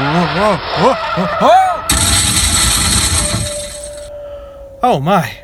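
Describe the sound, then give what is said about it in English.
A car spins off the road into a ditch during a twister, giving a loud crash of shattering glass that lasts about two seconds. A voice cries out before and after, and a thin steady tone lingers after the impact. “Oh my goodness. That twister came out of nowhere. Dear listeners, it spun me around and into a ditch.”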